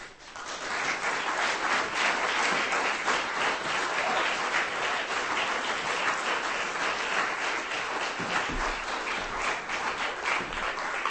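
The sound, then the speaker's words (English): Audience applause after a reader finishes at a live reading event: thick, continuous clapping from many hands that stays loud and steady for about eleven seconds. “That is Jessica Lohafer. Give her a hand. Keep it going.”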